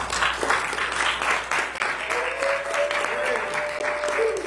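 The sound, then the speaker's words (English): Audience applause fills the space for a speaker, dense, steady clapping that holds at an even level throughout. “Give her a hand. Very good.”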